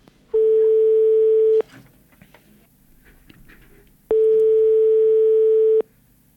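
Telephone line tone as a recorded phone call begins: two long, steady, evenly pitched tones, each lasting over a second, separated by a pause filled with faint background noise.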